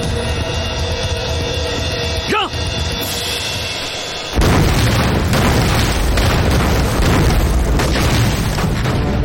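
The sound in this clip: Hand grenade explosions in a wartime firefight against Japanese troops: after several seconds of quieter sound, a sudden heavy blast opens a loud, sustained roar of booming bursts that continues to the end.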